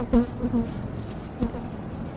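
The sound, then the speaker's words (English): Bees swarming in their thousands around hives at a cranberry bog on an overcast late afternoon, a steady low buzzing hum with a few brief louder swells. “The hives are swarming with thousands of bees.”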